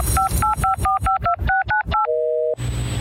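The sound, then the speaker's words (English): Telephone keypad dialing tones: a quick, even run of about nine short beeps at varying pitches, then one longer steady tone that gives way to a soft hiss. “It's dialing season.”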